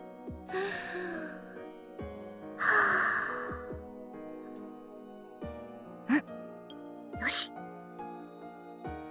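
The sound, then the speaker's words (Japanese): Woman taking deep breaths: two long, airy breaths followed by two short, sharp intakes, with soft steady music underneath. “ごめんなさい。まずは、深呼吸させて。”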